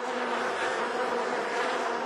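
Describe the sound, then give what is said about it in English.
Buzzing of a swarm of bees: a dense, continuous drone with steady loudness and no pauses, heard on its own. “Yeah, that buzzing sound you heard is essentially a swarm.”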